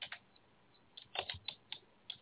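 Faint typing on a computer keyboard while writing into a chat room: a few irregular, light keystroke clicks, some in quick pairs, with no talk.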